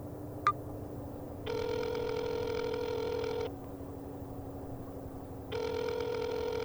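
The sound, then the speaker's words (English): Ringback tone of an outgoing telephone call: a soft click, then two long electronic rings separated by a pause, faint and without any voice. “Call Ashley.”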